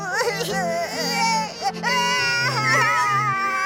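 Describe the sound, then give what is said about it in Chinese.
A child cries in loud, high-pitched, wavering wails and sobs, the voice sliding up and down in broken bursts over steady low sustained tones. “怎么哭了？哎呀，别哭了”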